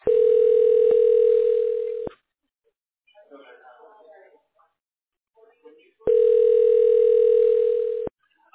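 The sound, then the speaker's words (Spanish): Telephone dial tone: a steady, loud electronic tone lasting about two seconds, then a gap with faint sound, then the same tone returning for another two seconds. “Cuando se suena el dial tone, es porque está llamando, porque ya está en el voicemail.”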